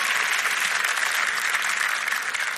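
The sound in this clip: Audience applause fills a church as a speaker is welcomed: dense, steady clapping from many hands, loud and sustained throughout without a break.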